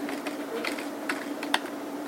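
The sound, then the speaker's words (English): Typing on a computer keyboard: a steady run of many quick key clicks, with one sharper keystroke near the end, over a constant low hum. “Okay, let's see if I can type.”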